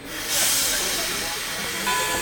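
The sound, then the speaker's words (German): Loud, continuous hissing of steam from a train departing for the Pyrenees, swelling up within the first moments and then holding as a broad, steady hiss with a slight lift near the end. “Beide steigen in einen Zug, der nach Luz in den Pyrenäen fährt.”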